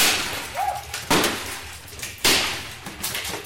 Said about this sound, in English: Welcome to Smash It 2, a place where you go to break things, where you're supposed to bash and crush and pummel.